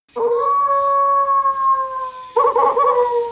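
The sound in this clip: A giant alpha spirit wolf howls from a hilltop: one loud, long, steady tonal howl held without speech, then a rougher, layered swell of howling near the end.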